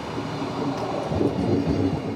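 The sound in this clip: A train running on rails gives a steady, even rumble with a dense, rattling low roar and no clear breaks or horn.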